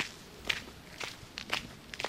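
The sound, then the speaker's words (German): Footsteps on a steep uphill footpath climbing to Trifels Castle on a rocky peak above the Palatinate Forest, several soft, quiet crunching steps spaced irregularly over a faint background. “Man muss zu Fuß hinaufsteigen. Es geht steil bergauf.”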